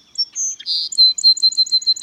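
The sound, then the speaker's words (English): A North American song sparrow sings: a few scattered high opening notes, then a buzzy note, then a quick run of many bright, evenly spaced high chirps. The song is clear and stands alone. “Few backyard birds in North America are more widespread than the song sparrow.”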